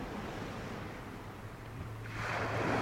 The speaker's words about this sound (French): Ce bruit qu'on entend, c'est la mer. Je dis que ce bruit qu'on entend, c'est la mer. Nous sommes assis sur la grève.